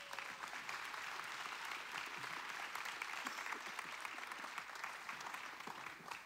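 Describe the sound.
A church audience claps to welcome a pastor to the stage. The applause is dense and steady, made of many hands, and lasts about six seconds with no pause.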